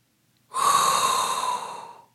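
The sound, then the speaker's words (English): A single deep inhaled breath, one long airy draw of about a second and a half, loud and close, starting abruptly and tapering off gradually, alone with no talk around it. “So all there is left to do is inhale a hot breath”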